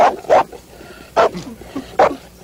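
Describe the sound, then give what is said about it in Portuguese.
A small dog gives a few short, sharp, high-pitched yaps spaced by pauses, with faint whiny sounds in between, in a dubbed film scene. “Cachorrinho.”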